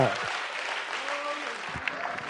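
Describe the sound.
A church audience clapping their hands, a dense, continuous patter of applause with a voice speaking over it.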